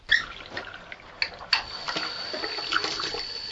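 Hot water runs from a tap to fill a home bathtub, a steady bright hiss of pouring water broken by a few sharper splashy clicks.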